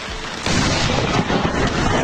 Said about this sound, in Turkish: İşçiler çalışırken yağmur etkisini artırınca bir ağacın altına geçtiler. Ancak bir süre sonra yıldırım düştü.